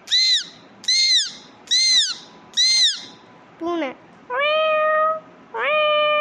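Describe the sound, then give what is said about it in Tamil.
A girl imitates animal calls such as a parrot and a cat: four short, arched, squawk-like cries in a quick even rhythm, then three longer, steadier tonal calls, loud and with no other sound behind them. “ஆனால் இவரோ விலங்குகள் மாதிரியே சத்தம் போட வருகிறார் mimicry செய்ய.”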